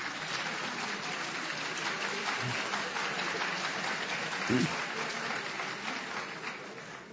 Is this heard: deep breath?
no